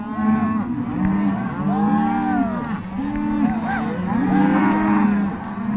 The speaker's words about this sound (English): This is the sound of a roundup in western South Dakota. Ranchers gather their herds and brand their calves and do their best not to get trampled.